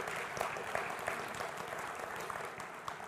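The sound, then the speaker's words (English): Church audience applauding a baptism, a steady, fairly soft wash of many hands clapping with no break. “By the way, we have a baptism today. Isn't that awesome? That's right. We can applaud for that”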